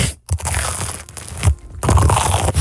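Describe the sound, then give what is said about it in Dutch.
Loud crunching and crackling as a microphone bumps into a cheese sandwich being eaten, a rough burst of noise broken by short gaps. “Sorry, mijn microfoon ging in mijn broodje.”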